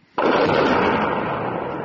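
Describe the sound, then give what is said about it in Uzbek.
Explosion in military footage near Bakhmut: a sudden loud blast breaks a brief quiet and rolls into a sustained, broad rumbling roar that fades only slightly. “Ukrainaning 93-chi mexanizatsiyalashgan brigadasi Baxmut atrofidagi bir nechta portlashlar aks etgan videoni e'lon qildi.”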